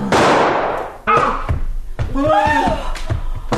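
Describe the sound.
A pistol gunshot in a radio drama bursts out as a loud, sharp crack with a quickly fading tail. Urgent, agitated voices follow.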